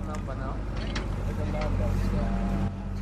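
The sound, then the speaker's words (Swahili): A small sugarcane juice-pressing machine runs at Makerere University Business School in Kampala, giving a steady, loud, low motor drone with a throbbing hum that lasts the whole time, while voices are faintly mixed in. “Na msikilizaji, unachosikia ni mashine ndogo ya kutengeneza rojo kutoka kwa miwa.”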